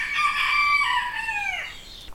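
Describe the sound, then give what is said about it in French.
A modern English game bantam rooster gives one long, strained, high crow that holds steady and then drops in pitch at the end, heard alone over a low, steady background hiss. “Le jour se lève sur Ivignac-la-Tour et le coq chante.”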